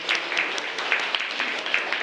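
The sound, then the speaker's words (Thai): Classmates applauding a student's answer in a classroom, many quick uneven claps from a small group forming a light patter that continues steadily for two seconds. “ยอดเยี่ยมมากเป็นคำตอบที่น่าประทับใจปรบมือให้เพื่อนหน่อยครับ”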